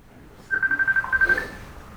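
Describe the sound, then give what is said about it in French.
A mobile phone rings with a quick train of about ten short, high electronic beeps lasting roughly a second, then stops, leaving low background hum. “C'est quoi qui sonne ? Le frère, il prend son téléphone, il l'éteint.”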